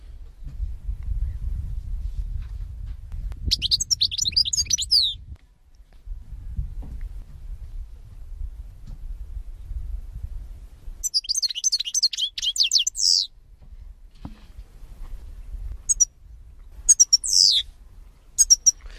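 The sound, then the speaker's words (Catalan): European goldfinch song: three spells of bright, rapid, twittering high-pitched phrases, each lasting a few seconds, over a loud low rumbling noise that comes and goes. “La cadernera. Espera't un segon, este, hi ha que escoltar-lo.”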